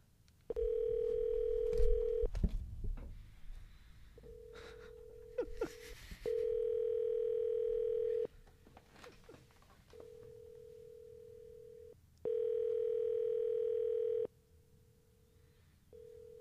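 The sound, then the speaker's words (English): A phone rings out on a call, giving a ringback tone in repeated two-second bursts separated by pauses. Some fainter tone bursts sit between the louder ones, and a brief clatter sounds near the start. “Is he actually going to pick up?”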